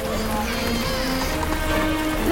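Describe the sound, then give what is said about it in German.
Pouring rain falls as a dense, steady hiss that stays loud from start to finish, with faint tones running beneath it. “Auch strömender Regen hält ihn nicht ab.”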